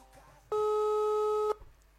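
Telephone ringback tone sounds while a call goes unanswered: a single steady electronic tone about one second long, clear and fairly loud against a faint, quiet background.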